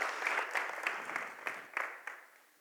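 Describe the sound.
Warm audience applause welcoming a speaker at an Alive in Granville neighborhood event, a lively spread of clapping with scattered sharper claps that gradually thins and fades out.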